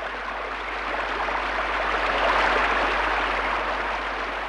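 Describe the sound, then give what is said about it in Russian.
Heavy rain pouring down, a steady, dense hiss that holds at an even loudness throughout with a low hum beneath and no voices. “Ну и льет. Я в самом деле весь промок.”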